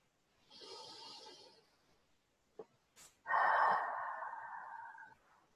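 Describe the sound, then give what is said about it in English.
Connected breathing during a guided breathing exercise: a soft, airy breath, a pause with a couple of brief clicks, then a stronger and longer rushing breath that slowly trails off. “choose connected breaths to restore and revitalize your system”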